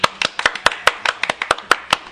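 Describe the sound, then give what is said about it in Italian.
Hand claps of applause for a correct quiz answer on a web radio show: many crisp, separate claps in a loose, slightly uneven rhythm, about five per second, sharp and clear with no voices. “Grandissimo applauso. Grandissimo applauso”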